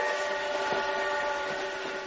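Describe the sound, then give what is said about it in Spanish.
A train from around 1930 sounds a steady, sustained chord-like horn tone over a continuous rumbling roar, loud and unbroken for the whole stretch with no voices. “Ese podría ser un tren de 1930 que llevó a Gala por primera vez, ella llegaba con su marido.”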